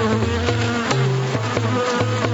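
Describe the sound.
A worker honeybee buzzes near its hive, giving a loud, steady, reedy drone that shifts pitch a few times, with no other sounds.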